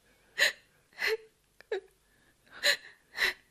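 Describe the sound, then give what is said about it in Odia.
A person crying in sobbing, gasping breaths: five strong sobs in an uneven rhythm, with a short catch of breath between them, fairly quiet and with no words. “ଆରେ, ତମେ କାନ୍ଦୁଛ କଣ ପାଇଁ?”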